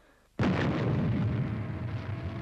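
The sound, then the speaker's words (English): A spaceship's launch motors ignite with a sudden loud blast, then settle into a sustained, broad, roaring rumble that continues to the end. “Well, that was an unusual shot of the XL5 launch motors kicking in there.”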